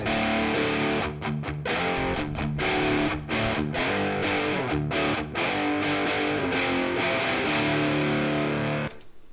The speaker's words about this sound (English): And I recorded another set of guitars. Again, hard pan to the left and to the right. But I went for a different amplifier in this case. And those guitars sound like this.